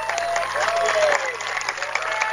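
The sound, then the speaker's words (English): Fans cheer and applaud at a softball game after a leadoff single: a steady wash of crowd noise and clapping, moderately loud, with a commentator talking over it. “Crowd's making noise here. Not sure how much you can pick up in the background, but both these fan bases are into this one.”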